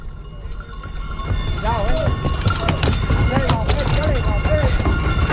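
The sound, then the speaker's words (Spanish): Mules' hooves clop up a ramp onto barges, scattered irregular knocks and thuds over a steady low rumble, growing somewhat louder after the first second. “Eso era efectivamente un leve bote que dan las mulas, ya se suben a las barcazas de los Cristóbal”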